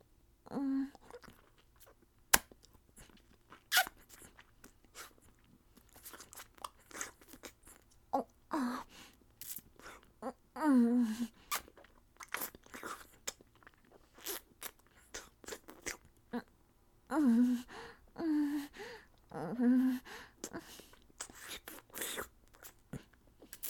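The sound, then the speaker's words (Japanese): Wet kissing sounds, many soft lip smacks in irregular bursts with faint hums between them, quiet throughout. “ご褒美としてキスをしてあげます。”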